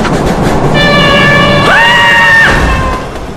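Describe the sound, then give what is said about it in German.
A subway train pulls into a New York station, a loud steady rumble carrying a sustained tonal whine that steps up in pitch midway, drops back down, then fades slightly at the end. “Wann kommt denn nun der Zug? Ah, da kommt er schon.”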